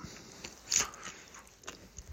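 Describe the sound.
Crunchy rice crackers being bitten and chewed: one sharp crunch stands out, followed by a few smaller crackling bites, all faint and with no talk.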